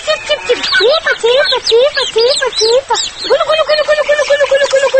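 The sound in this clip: A 64-year-old village woman calls her chicks to feed them, with many short, high-pitched, sing-song calls in a quick run, then a longer trilling stretch of rapid repeated notes, loud and unaccompanied.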